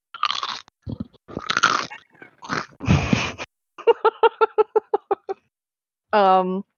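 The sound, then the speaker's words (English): Loud crunching as someone eats potato chips, with several bursts of brittle chewing noise. A run of rapid rhythmic laughing pulses follows, then a brief voiced sound. “I was trying to like sit here and eat my chips very quietly”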